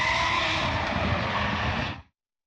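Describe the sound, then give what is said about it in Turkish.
Roaring engine and tyre noise from a drift show car on a race track at a drift championship round in Gaziantep, a loud, continuous, rough roar that holds steady for about two seconds and then cuts off abruptly. “gösteri aracı pistte gerçekleştirdiği sürüşle organizasyonun startını verdi.”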